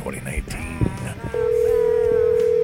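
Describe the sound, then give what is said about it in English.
A telephone being dialed: after a moment of talk and clatter, a steady, continuous phone tone comes in and holds at an even pitch and loudness to the end. “Give me some soothing tones while I get the phone cranking.”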